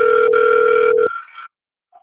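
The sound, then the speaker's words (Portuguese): A single ringback tone on an unanswered phone call: a steady, loud electronic tone that holds for about a second, then cuts off and gives way to silence. “é porque eu estou na ligação, só que o São Paulo não está atendendo.”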